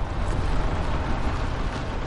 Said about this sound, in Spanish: La camioneta circula por un camino con baches.